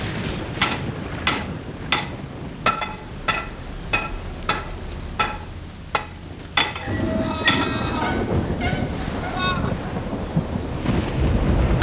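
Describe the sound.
A thunderstorm with rain, a dense hiss of rain and low rumbling with a regular series of sharp knocks in the first half, before the rain grows heavier and louder.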